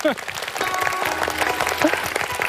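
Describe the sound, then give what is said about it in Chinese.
Dense applause from an audience clapping for themselves at a lecture on classical Chinese poetry, a steady, even patter across the whole clip, with a voice briefly heard at the start. “咱们把掌声送给自己”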